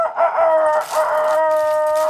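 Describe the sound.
A rooster crows once during a number draw, a loud, sustained, harmonic call lasting about two seconds with a steady pitch and a slight wavering at the start.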